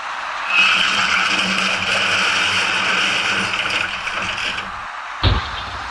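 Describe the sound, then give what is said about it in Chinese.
A large truck drives past a road construction site where traffic cones leave a single lane open. A steady, broad engine rumble and road roar run throughout, and a sharp low thud comes near the end. “就在这时，一辆大货车开了过来，您注意看它的右侧车身。”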